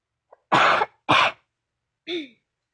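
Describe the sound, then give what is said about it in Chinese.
Someone at home clears their throat twice in quick succession with rough, raspy bursts, then gives a brief soft voiced hum; silence fills the gaps between them. “然后我清个喉咙。”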